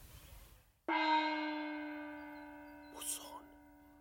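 A bell struck once, ringing out with a bright, sustained tone that slowly fades away, after a brief moment of near silence.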